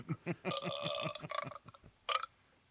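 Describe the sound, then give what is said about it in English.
A person burps: one long, rough belch pulsing rapidly for nearly two seconds, then a short second burp after a brief pause, loud and alone with no talk over it. “Because I burp a lot too.”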